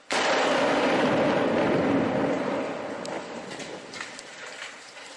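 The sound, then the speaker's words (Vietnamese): A barrel bomb, a crude explosive-filled container dropped from a helicopter, blows up in a suburb of Aleppo: a sudden loud blast opens into a long, dense roaring rumble that slowly weakens, with a few faint crackles near the end. “Những âm thanh mà quý vị vừa nghe là tiếng bom thùng phát nổ trong vùng ngoại ô Aleppo hồi đầu tháng này.”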